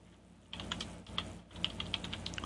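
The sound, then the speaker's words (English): Typing on a computer keyboard: bursts of crisp key clicks in an irregular rhythm, some strokes louder than others, with no voices. “Some days you just can't type.”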